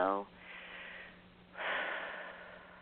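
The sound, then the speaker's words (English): Deep breathing during a relaxation exercise: after a brief bit of voice, two long, soft, airy breaths follow one after the other, fairly faint and steady. “Just going to breathe. Breathe, breathe, breathe.”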